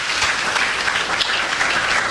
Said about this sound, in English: Yeah, you guys can clap on that.